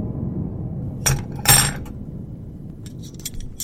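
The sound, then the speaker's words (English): Metal clinking of instruments being put together on a tray: two sharp clanks close together, then a few lighter ticks over a low, steady hum. “It was the sound of metal clanking that stirred me from my tranquilizer-induced haze.”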